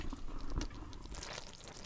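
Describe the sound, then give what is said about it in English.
Bubbling and squelching of fermenting kimchi brine as the vegetables are pressed down with a spoon, a steady crackly fizz with a louder burst early on. “If I push this down too much, I think the liquid's going to overflow. Okay, that's got some pretty serious bubble action going on.”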